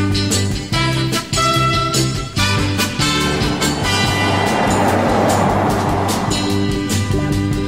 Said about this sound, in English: And we drive it around for a little while and we see if it stays on. And finally, step three, drive.